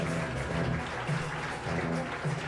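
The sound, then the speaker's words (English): Audience applause at a live comedy show welcoming guests: dense, steady clapping that fills the whole moment at an even level. “Make some noise for them, everybody.”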